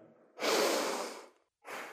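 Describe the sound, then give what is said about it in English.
A deep breath drawn in and let out, a long, rushing, breathy exhale-like swell, then a brief pause and a second breath beginning near the end; soft overall and heard alone without talk. “let's take an unassisted breath together”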